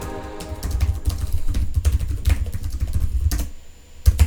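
Rapid typing on a computer keyboard: a loud, steady run of many quick clacks over a low rumble, with a brief lull before a couple of sharper strikes at the end.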